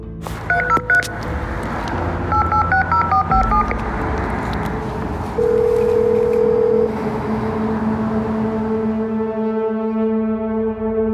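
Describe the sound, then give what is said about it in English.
A call box keypad dials a code in quick dual-pitched DTMF beeps, clear and fairly loud. A sustained steady tone follows, then a lower hum. “I reach the call box. I find the unit where Chris is staying, and I dial the code.”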